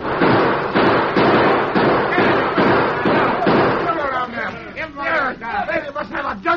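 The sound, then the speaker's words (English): Gunfire rings out in a radio drama shootout as a rapid run of sharp, loud bangs at a fairly steady rhythm, then gives way to people talking. “Keep shooting. You'd better give up. Nothing doing. You can't make us give up. Let them have it, men.”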